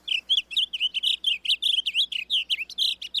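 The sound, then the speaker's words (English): A blue grosbeak sings a rapid, unbroken string of many high, warbling chirps, each note short and slurred, run together in a bright, jumbled phrase that continues without a break. “Today, rather than the roar of cannons, fields like Antietam are filled with the songs of blue grosbeaks,”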